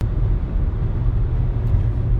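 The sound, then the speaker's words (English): A car driving westbound on the Loop 202 Red Mountain Freeway produces a constant, loud, low road rumble that stays even throughout, with no voices. “So just on a drive, leaving Dad's house, driving westbound on the Loop 202 Red Mountain Freeway.”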